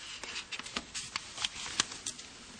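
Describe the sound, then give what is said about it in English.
Crisp rustling of paper notes clipped together with a paper clip, heard as a run of quick papery flicks and crackles with no voices. “sorry, I always clip my notes together, and I take the paper clip off, and this morning I neglected to do that.”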